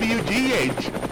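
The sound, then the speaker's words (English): A news helicopter flies, its rapid rotor chop forming a loud, steady whirring beat under a brief voice in this short burst. “And watch out for the chopper.”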